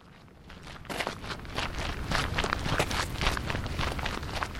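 Brisk walking footsteps of two people out in a park, a quick, steady run of many soft steps that continues throughout.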